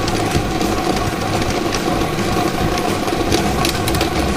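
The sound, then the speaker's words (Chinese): A lottery draw machine spins 30 numbered balls, making a continuous mechanical whir with a busy, rattling texture that holds steady in level throughout. “大家看到摇奖机已经正式启动了，我们看到30个号码球正在摇奖机当中飞速地旋转着”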